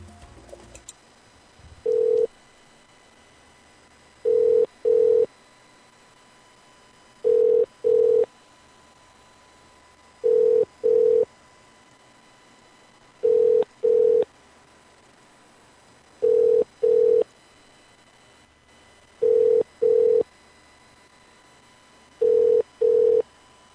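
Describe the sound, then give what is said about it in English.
A telephone ringing unanswered, a steady series of paired electronic rings with a mid-pitched tone and even gaps between each pair. “Answer the damn phone.”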